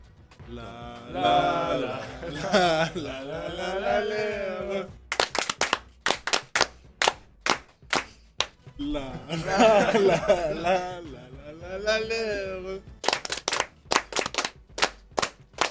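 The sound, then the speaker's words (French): Rhythmic group clapping of a ban bourguignon in a radio studio: voices chant and laugh, then two separate bursts of sharp, patterned claps follow, loud and crisp between stretches of voices. “Bon, et on va finir avec un petit bambourguignon. Bon, vous connaissez, ça, pas la peine de vous apprendre. Donc on va tous faire en studio un bambourguignon.”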